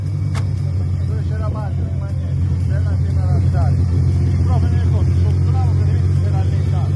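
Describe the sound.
Rally car engine at the start of a hill climb, a steady, loud, low rumble that continues throughout under people talking.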